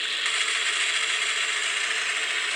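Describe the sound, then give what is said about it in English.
A Browning machine gun fires in a dense, rapid, high-pitched mechanical rattle that is sustained evenly at moderate loudness for the whole clip, with no voices. “Machine gun fire? That was a Browning. Yeah, nice. From a machine gun.”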